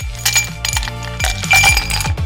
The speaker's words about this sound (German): Das sind die Eiswürfel, die heute für Abkühlung sorgen